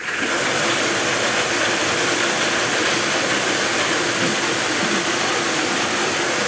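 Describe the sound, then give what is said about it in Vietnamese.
Lottery number drums spin at a live Kien Giang lottery draw, giving a dense, steady whirring rattle that stays loud and even throughout, with no voices. “Giải này được quay 5 lòng cầu và quay một lần. Mời 5 em quay số.”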